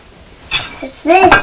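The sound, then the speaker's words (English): Glass jars of jam and yeast extract being handled, giving a couple of brief glassy clinks and knocks against a quiet background. “Yes, this jar of jam's quite heavy as well. But I think the Marmite jar's heavier because the jam jar's nearly empty.”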